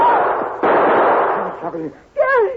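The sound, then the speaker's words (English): Gunfire in a radio drama shootout: a loud blast with a long, rough, roaring tail that drops away before a voice follows. “Gary, you shot him. He fell to the ground.”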